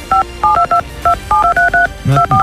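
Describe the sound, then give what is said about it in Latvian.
A radio contest's call signal made of telephone-style dual keypad tones, many short beeps in a quick, uneven rhythm, loud and alone. “Es skatos jau zvanu, bet jāzvan tajā brīdī, kad tas signāls atskan. Tas signāls ir šāds, jā.”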